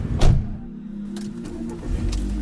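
A car drives along a road out to the countryside with a steady, low rumble of engine and tires. A brief louder swell comes near the start, and a slight rise follows toward the end.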